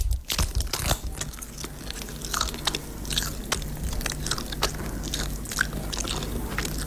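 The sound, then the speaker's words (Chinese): Crinkly plastic crackles and tears as a small vacuum-packed bag of ejiao paste is torn open: many sharp, dry rustles and crunches in quick irregular succession, fairly faint and continuous, with no talk. “这一小袋真空包装的啊，干干净净的，来撕开。”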